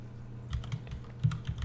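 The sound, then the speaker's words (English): Quiet keystrokes on a computer keyboard as a show name is typed in: several uneven taps in two short bursts over low background hum. “I think I'm supposed to type this in,”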